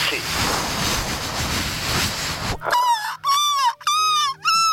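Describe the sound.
A voice imitates sea waves with a long, steady breathy whoosh, then switches to four high, warbling whistled bird calls in quick succession.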